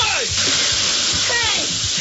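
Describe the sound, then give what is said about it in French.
Water sloshing and splashing as a building floods after a large wave is set off: a loud, continuous, churning rush with indistinct voice-like sounds mixed in throughout. “Hey, y'a de l'eau partout. Y'a de l'eau partout.”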